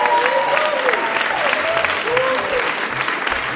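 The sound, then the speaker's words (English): Applause from a live show audience for the evening's guests, a dense, steady roar of many hands clapping that holds at an even level for the whole stretch. “And could we give one more hand tonight to all our guests, who I thought were just fantastic.”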